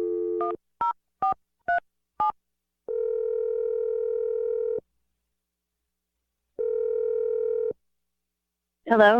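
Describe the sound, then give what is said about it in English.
A telephone number is dialed: five short touch-tone beeps in quick succession, followed by two long, steady, even tones separated by silence. “I'm going to dial Melanie's number right now.”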